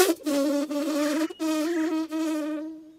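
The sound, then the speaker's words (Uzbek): A fly buzzes in flight: a loud, steady nasal drone with a few brief breaks and small wavers in pitch. No voices are heard. “Chivin shunday deb to'g'ri uchib, merganning oldiga boribdi.”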